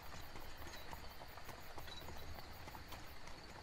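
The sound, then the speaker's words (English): Hooves of a horse-drawn carriage clip-clop in a faint, steady rhythm of many beats over a continuous rumbling background noise. “We have a long carriage ride to the rendezvous point.”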